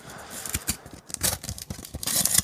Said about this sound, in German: Das ist die falsche Seite vom Umschlag. Ja, das ist wie Geschenkpapier, das musst du einfach aufreißen.